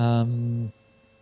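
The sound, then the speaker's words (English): A coffee machine being switched on gives a loud, steady electric hum with buzzy harmonics. It holds for under a second, then cuts off abruptly and leaves only faint background noise. “So we can turn the coffee machine on.”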